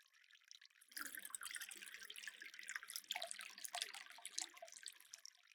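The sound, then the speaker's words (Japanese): Clean, clear water pours in a steady, splashing stream that starts suddenly after a moment of near silence and keeps running, bright and hissing, with no voices. “ほら、きれいな水でございましょう。こんなにも澄んでいるのですから、流せばさぞ心地よいことでしょう。”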